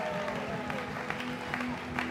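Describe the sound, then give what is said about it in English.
An audience applauds to welcome a pastor onto the stage: steady, dense clapping from a crowd that holds at a fairly even level throughout. “So tonight, why don't you jump to your feet and give Pastor Mervyn J. Sealer a huge welcome.”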